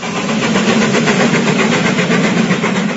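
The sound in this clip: A historic train's engine rumbles steadily and loudly without a break, in Argentina's Punilla Valley in the Córdoba hills.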